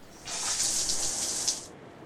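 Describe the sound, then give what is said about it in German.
Water bubbling and swirling in a river, a faint, soft gush that rises in, holds for about a second and a half, then stops. “Da blubberte etwas im Wasser, kleine Strudel entstanden”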